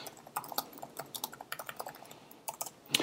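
Rapid, irregular clicking of keys as someone types on a computer keyboard, many light taps in uneven bursts with brief pauses, with no talk.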